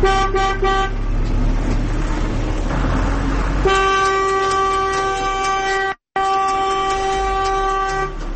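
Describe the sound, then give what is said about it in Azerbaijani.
Car horns honking in traffic, a short blaring burst at first, then long continuous loud horn blasts with a brief break, held over a dense rumble of engines and road noise. “Maşınların siqnal verməsi öz-özünə çox böyük problem.”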